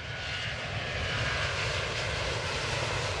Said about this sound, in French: Attention, départ immédiat vers la Californie. Nous allons décoller pour Lyon ce week-end-là.